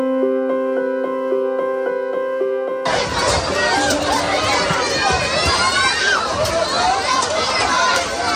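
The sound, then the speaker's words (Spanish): Crowd crushing together at a food distribution in Gaza, a loud, dense babble of many shouting voices and cries that bursts in suddenly after a few seconds of sustained tonal music, then stays chaotic and steady to the end. “Este es el sonido de una de las escenas que desgraciadamente se han hecho habituales en Gaza. La distribución de comida provoca que muchas personas se amontonen.”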